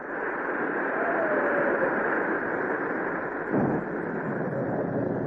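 Strong evening wind and sea waves roll around a boat on the water in a steady, dense, roaring rush that never pauses. A faint whistle sounds early on, and a brief surge comes a little past the middle.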